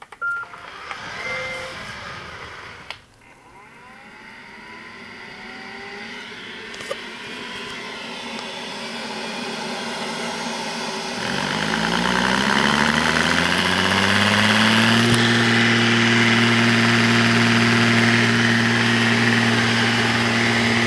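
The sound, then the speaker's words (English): A robot vacuum cleaner pulls away from its charger and starts a cleaning cycle. A quiet low rumble gives way to a motor whine that climbs in pitch, then settles into a loud, steady hum. “we press the button again, and then it will pull out away from the charger and start a cleaning cycle. So here we go.”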